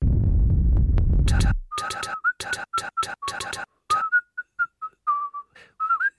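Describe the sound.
High, thin whistling on a cold, windswept snowy plateau by a ski lift: many short, sharp whistled notes in an uneven rhythm, starting as a loud low sound fades out and thinning to scattered chirps.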